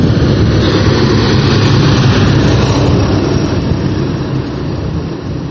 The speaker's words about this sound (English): So the car's coming.